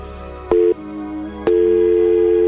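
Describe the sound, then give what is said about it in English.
Telephone line tone from an incoming call: two steady electronic tones over a low hum, a short beep lasting a fraction of a second, then after a pause a sustained tone running to the end. “That mysterious tone, which is both a caller and the absence of a caller.”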